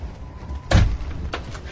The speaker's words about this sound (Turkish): Kapıyı kapayıp sürgüyü çek.